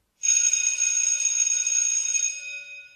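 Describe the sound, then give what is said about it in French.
A bell rings for noon in a continuous shrill, high-pitched electric ring. It holds steady for about two seconds, then fades away. “Ça sonne, il est enfin midi.”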